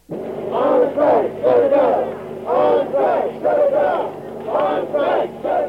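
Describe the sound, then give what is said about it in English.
Striking students at San Francisco State College chant in protest. Loud collective shouts come in rhythmic, repeated phrases, each burst followed by a short dip before the next. “This is the sound of dissent. Students on strike at San Francisco State College, demanding the campus be shut down.”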